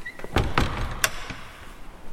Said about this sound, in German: Mach die Tür zu. Aber... Mach die Tür zu. Mach die Tür zu.